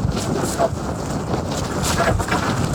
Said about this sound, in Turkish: Fırtınaya aldırış etmeyen gençler dondurucu soğukta yüzük takmayı da ihmal etmedi.